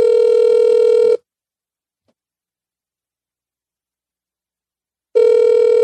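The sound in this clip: Ringback tone on an outgoing voice call: a steady, buzzing tone lasts about a second, then a long silence, then the same tone starts again at the end.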